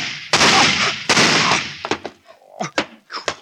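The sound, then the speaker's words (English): Handgun shots in a radio drama, fired during a confrontation. Two loud, booming bangs ring out one after the other, each with a lingering tail, followed by fainter, shorter sounds. “Madeline, where did you get that gun? I always thought that someday I might need one. Madeline! Don't come near me, John. Very well, John, I warned you.”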